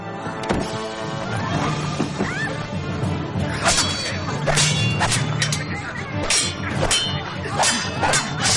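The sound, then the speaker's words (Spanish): Swords drawn from scabbards and clashing as two men leave a carriage to fight attackers: loud metallic clangs and whipping swipes pile up over a dense, busy mix of movement and impacts. “Vázquez y Espinosa desenvainan sus espadas y salen del carruaje para enfrentarse a sus atacantes.”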